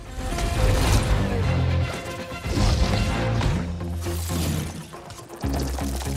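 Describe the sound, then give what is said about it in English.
A thrown magnetic disc smacks a masked man in the face during an animated action fight, heard as loud crashing impacts over a dense, rumbling bed of sound. “A disc hits him in the face.”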